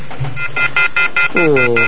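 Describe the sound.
An incoming phone call on a radio call-in line comes through as a fast, even series of high electronic beeps over a low background, with a voice underneath.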